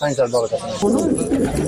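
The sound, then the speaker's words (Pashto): Pigeons cooing at a pigeon-keeping market in Afghanistan, soft throaty coos blending with nearby voices and general bustle. “د کوترو ساتل د افغانستان په بیلابیلو سیمو کې له پخوانیو دودونو او سنتونو څخه دي”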